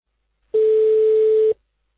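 A telephone tone sounds as a call is placed to a resident of Isfahan: a single steady, mid-pitched tone of about one second that starts and stops cleanly against silence.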